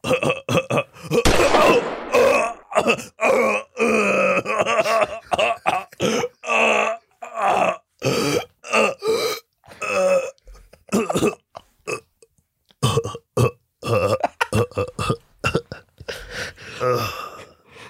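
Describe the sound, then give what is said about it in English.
A man's voice acts out a dying breath, imitating it with many short, loud rasping gasps, grunts and burp-like exhalations in a broken, irregular rhythm, separated by brief silences. “That would be his dying. That would be Seth. That's what Seth Rogen's dying breath would sound like.”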